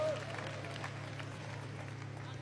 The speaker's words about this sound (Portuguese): E vocês continuam aplaudindo o nome do Senhor. Com glória a Deus, com aleluia, com glória, palmas, continue aplaudindo.